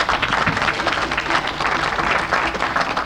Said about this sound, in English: You always clap about money, but when it comes down to responsibility, I don't hear anybody saying anything.